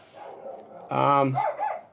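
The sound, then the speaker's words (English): A dog barks excitedly in a short, loud burst of barks and yelps. “And there you go, my dog's going crazy.”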